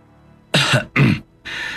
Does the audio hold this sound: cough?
yes